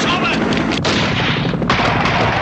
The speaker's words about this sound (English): The helicopter gunfire continues as guards hurry around the perimeter.